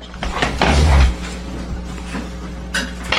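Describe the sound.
A Bible being flipped open, heard as a brief rustle and soft thump near the start, then fainter papery sounds.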